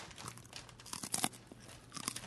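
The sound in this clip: Someone bites and chews a crunchy soy sauce flavored food, making faint, dry crunches in a few uneven bursts with brief pauses between them.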